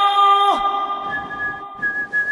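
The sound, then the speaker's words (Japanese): Suspenseful whistling from a single whistler: a high whistled note slides sharply downward, then steady held tones continue, fairly loud and without talk. “何そのサスペンス口笛は。”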